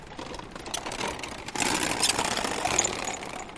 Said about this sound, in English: You spin the prayer wheel clockwise, as the direction in which the mantras are written is that of the movement of the sun across the sky.